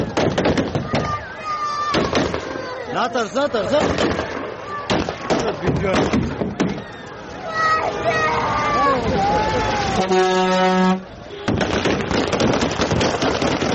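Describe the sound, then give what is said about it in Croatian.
Gunfire at Kabul airport: many sharp, irregular cracks and bursts ring out over a panicked, shouting crowd, with a brief steady tonal blast partway through before the clatter resumes. “Danas je također zabilježena pucnjava na aerodromu u Kabulu i panični pokušaj ljudi da pobjegnu.”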